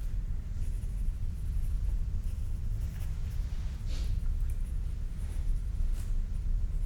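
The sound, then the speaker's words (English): A pen scratches faintly as notes are written down, soft irregular strokes barely rising above a steady low hum. “Let me just write down all of the aspects of that question, and I'll come back to treat it in turn.”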